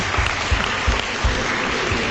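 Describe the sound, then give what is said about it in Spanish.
Audience applause at a civic event with the mayor honouring promising young entrepreneurs: steady, dense clapping with soft low thumps running through it. “dos aplausos, por favor”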